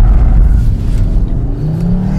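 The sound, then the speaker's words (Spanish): A Cupra Formentor car drives and accelerates hard. Its loud, deep engine roar carries a tone that climbs in pitch toward the end. “El vehículo te deja apuntarlo muy bien. No sé cómo lograron mantenerlo así a punto. Vamos, está delicioso de manejar.”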